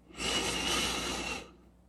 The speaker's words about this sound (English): So let's start breathing slowly. And breathe through your nose. Let's take just one breath together in.